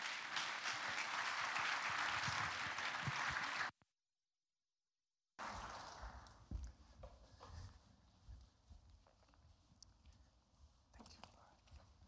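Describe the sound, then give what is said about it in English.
An audience applauds to welcome a speaker at a morning gathering. Thick, continuous clapping holds for a few seconds and then cuts off abruptly. After a silent gap, a voice talks with some scattered faint noises. “Would you put your hands together and welcome Gabriel Aaron?”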